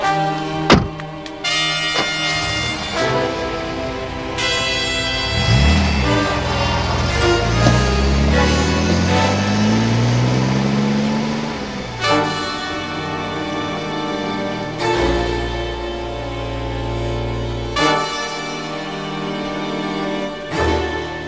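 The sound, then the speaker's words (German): A car driving off back toward the road, opening with a dull thud, then an engine whose tone sweeps upward as it pulls away, all under continuous sustained tonal sound. “Ja, Sir. Ich fahre zur Straße zurück.”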